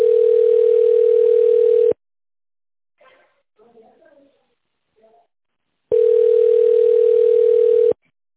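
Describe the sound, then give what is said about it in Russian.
Two long, steady single-pitch telephone ringback tones, each lasting about two seconds and separated by a quiet gap of about four seconds with a few faint, brief sounds, play while a phone call is transferred to a secretary. “Звонок переводится на секретаря.”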